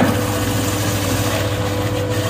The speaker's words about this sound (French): Direction la laveuse, l'éplucheuse.